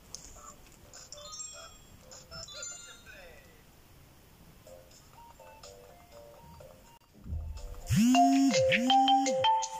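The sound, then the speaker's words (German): An incoming call's phone ringtone suddenly cuts in near the end as a loud, bright, repeating melody with bending notes. Quieter electronic tones and blips come before it. “Leute, jetzt ruft mich mein Freund an.”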